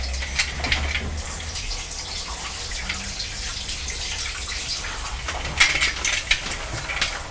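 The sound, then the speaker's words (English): Tap water runs into a sink while someone washes a pair of eyeglasses smudged with finger marks, a steady hiss throughout with a few louder splashes near the end. “Mummy's just got to wash her glasses because I've got finger marks on.”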